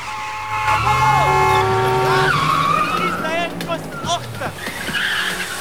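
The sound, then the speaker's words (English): Tires squeal and an engine roars as a jeep pulls out of a car park at speed and cuts through traffic. Sharp, rising squeals sit over a sustained vehicle roar that stays loud throughout. “Matt climbs into the passenger seat of the jeep and Sharon puts her foot down, cutting up traffic as she pulls out of the car park”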